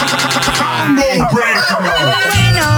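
Chicken and rooster calls, loud harmonic squawks and clucks with a crowing cry, packed into a few seconds.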